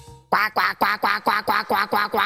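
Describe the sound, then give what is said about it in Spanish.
A person imitates a duck quacking: eight nasal, raspy quacks in a quick, even rhythm, each burst loud and clipped. “Yo hago al pato y lo ponéis vosotros la propuesta.”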